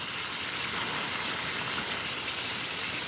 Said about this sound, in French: Donc là on a un studio qui est enfumé, voilà. Avec de l'azote liquide qui est en train de pétiller.